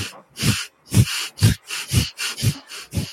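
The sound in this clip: Forceful exhales through the nose in a breathwork exercise, a steady series of short puffs of air at about two per second, each a loud burst followed by a brief gap.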